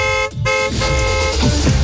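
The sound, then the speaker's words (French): A moped horn toots in short, bright, buzzy bursts separated by a brief gap, loud over a low, steady rumble. “C'est Popo qui arrive sur sa mobilette.”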